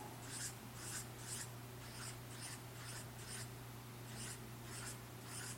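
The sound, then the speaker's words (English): A marker or pen draws many stones on a board in a run of short, quick, faint scratchy strokes at a fairly regular rhythm over a low, steady hum. “We're a big church, so let me draw a lot of stones.”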